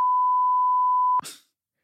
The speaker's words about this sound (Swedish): bipa det här